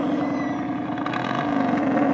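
Steady, rumbling exhaust drone from a small scooter fitted with a louder, Harley-like muffler. The tone stays continuous and fairly loud, with no clear change in pitch or pace.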